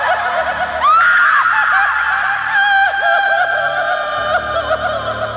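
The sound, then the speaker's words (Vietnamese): Eerie wailing cry of an ancient corpse as a horror story effect: a loud, high, voice-like wail that wavers and swoops downward in pitch, sustained and quavering throughout. “Lúc này là nghe cái xác cổ đời đường kia phát ra một tràng tiếng khóc gào.”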